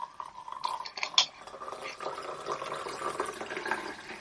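Green matcha-flavoured beer with hop bitterness pours into a glass, a soft continuous liquid rush and fizz with a few louder splashy bursts near the start, faint throughout.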